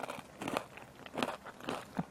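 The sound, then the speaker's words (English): Biting and crunching a cracker topped with hummus: a few crisp, brittle crunches in quick, uneven bursts at a quiet level, with no voices. “cracker is merely a method for conveying the hummus to my mouth. You know, it's just a mechanism.”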